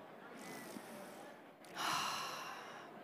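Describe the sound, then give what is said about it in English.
A deep breath is drawn into a live-audience microphone: one loud, breathy rushing hiss that swells suddenly after a quieter stretch, then slowly fades. “I'm going to take a big breath here. Ready? Breath.”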